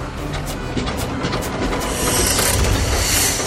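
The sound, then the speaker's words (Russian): Continuous mechanical clatter and hiss from a steam car turning around, a busy rattling texture that swells slightly louder and breathier toward the end. “Паровой автомобиль разворачивается.”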